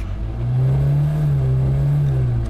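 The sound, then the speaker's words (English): A car engine drones loudly as the car speeds the wrong way down a busy motorway. The deep, even roar swells slightly early on and then holds steady throughout. “You're driving the wrong way down the motorway!”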